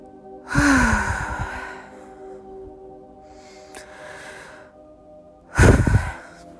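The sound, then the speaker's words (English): Deep breathing during a guided meditation: a long, airy inhale and exhale, then a softer, quieter breath, and finally another loud, rushing breath, with no talking over it. “Inhaling and exhaling. 3 more.”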